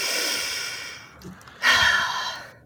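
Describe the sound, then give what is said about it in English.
A deep breath taken before walking in, a soft airy rush of breath that swells into a louder, longer inhale near the end, quiet and alone with no talking. “I just take a deep breath.”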